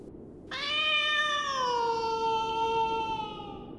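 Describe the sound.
A female cat gives one long, drawn-out meow. It starts abruptly and slowly sinks in pitch as it trails off over about three seconds, clear and loud with no other sounds.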